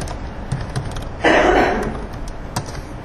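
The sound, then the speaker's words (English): Keys clack on a computer keyboard in a few scattered, sharp taps, with a brief louder rushing burst partway through. “on Google, type in QR code generator.”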